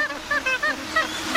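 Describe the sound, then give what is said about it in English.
Magpie goose calling: a quick series of short, fairly high-pitched honking notes, moderately loud and unaccompanied by voices. “We all know that magpie geese actually sound like this.”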